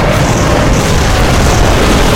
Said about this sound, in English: His tail continued to smash hard as well. And wherever he saw an opening, the dragon breathed his fire.